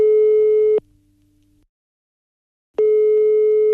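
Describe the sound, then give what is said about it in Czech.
Telephone ringing tone heard while placing a call: two steady, buzzy tones, each lasting about a second and separated by a long silent pause, with no talk. “Takže já volám Vaškovi Šandovi.”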